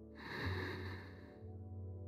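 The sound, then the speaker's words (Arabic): A single breath drawn in during a guided breathing exercise, heard as a soft, rushing airy sound over a low steady hum, easing off near the end. “خلينا نبدأ بالدورة الأولى. شهيق”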